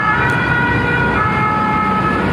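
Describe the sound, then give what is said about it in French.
Emergency vehicle sirens sound during a forest fire in the pine forest of the Landes de Gascogne, near a seaside resort. The siren tone is loud, steady and continuous, with road rumble underneath. “Rapidement, la quiétude de cette station balnéaire est remplacée par le bruit des sirènes”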